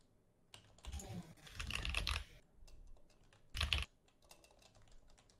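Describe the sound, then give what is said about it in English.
Keys clatter as someone types on a computer keyboard, faint irregular runs of tapping with a short louder burst of keystrokes partway through, no voices. “I'm going to type out specifically what I want this to say”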